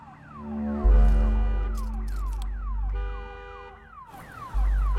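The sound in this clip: Car alarm set off by pressing a key fob remote button: a loud electronic siren with repeated falling sweeps that keeps going steadily over a low rumble.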